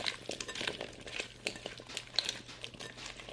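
Hands toss cleaned, dried potato pieces with avocado oil for latkes, making soft, irregular, fairly faint squelches, shuffles and many small wet clicks.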